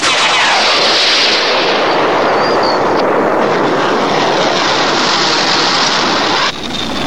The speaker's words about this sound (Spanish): Preparen proyectiles. 3, 2, 1. ¡Fuego!